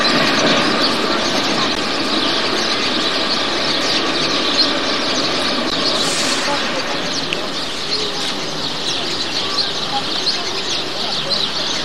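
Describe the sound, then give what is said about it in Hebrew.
Tram wheels squeal on the rails in a sustained, high, piercing tone over a low rumbling bed, with voices faintly mixed in. “גם את הטראמים תצלם”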